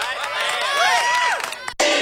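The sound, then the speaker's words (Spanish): Crowd cheering and shouting in response to a call for applause on a Pachuca radio station. Excited, high voices overlap loudly, then the sound cuts off abruptly near the end before resuming briefly. “¡Aplausos, aplausos!”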